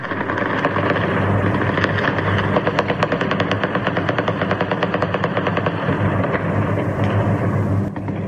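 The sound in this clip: Automatic gunfire rattles in long, rapid bursts as celebratory shots are fired in Kabul at night after the last American military flight departs. The loud, steady crackle of many rounds continues throughout, with no talk.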